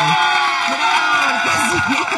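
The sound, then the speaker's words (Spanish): Studio audience cheering and whooping: a loud, continuous wash of crowd noise with several shouting voices rising and falling over it, carrying on without a break. “Por fin es viernes. Los aplausos.”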